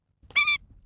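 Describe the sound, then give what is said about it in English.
An Indian skimmer, the orange-billed water bird of South Asia, gives a single short, high, nasal squeaking call with a brief soft lead-in, alone against silence. “That's the sound of the Indian skimmer, a unique orange-billed water bird native to South Asia.”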